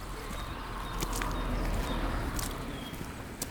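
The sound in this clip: Footsteps of people walking toward a castle, crossing a road past a pond and through a gate onto the castle grounds; steady steps sound under broad outdoor noise, with no talk.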